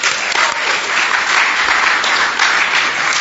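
Audience applause: dense, steady clapping that stays loud and even from start to finish, with no voices over it.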